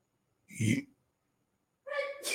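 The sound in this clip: A single sharp sneeze bursts out, then after a short pause a voice begins speaking.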